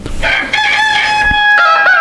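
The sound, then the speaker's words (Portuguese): A rooster crows loudly and alone, a bright, sustained, strongly harmonic call that wavers slightly in pitch over about two seconds. “Solta o galo cantar aí, isso, agora sim, né?”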